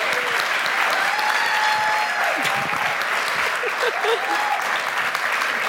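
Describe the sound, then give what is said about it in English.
An audience at a Mother's Day gathering gives sustained, dense applause welcoming a speaker to the front, the steady clapping holding at an even level throughout. “Would you give her a big welcome, please?”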